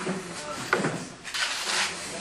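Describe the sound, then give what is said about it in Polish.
A door being shut during a meeting session, a brief sliding knock standing out against a murmur of talk. “Panie będą łaskawe usiąść, zamykamy drzwi i będziemy kontynuować.”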